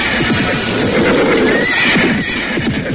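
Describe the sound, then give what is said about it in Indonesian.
Horses of a mounted party stopping in a palace courtyard: a loud whinny rises and falls over steady clip-clopping hooves, with the hoof beats continuing throughout. “Rombongan berkuda itu kemudian berhenti di halaman keraton.”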